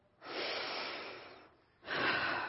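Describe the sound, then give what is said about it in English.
A deep breath drawn in to fill the lungs, a long, loud rush of air lasting over a second, then a short pause and a second strong breath. No one talks during it. “Just because we took a deep breath? Okay. You filled up your lungs with air,”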